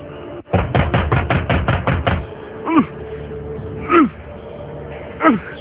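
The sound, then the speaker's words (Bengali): A door barred from the inside is being forced open with a crowbar: a fast run of many heavy knocking blows, followed by a few louder isolated sounds spaced apart. “দুয়ার ভাঙ্গো। শাবলটা আনছে,”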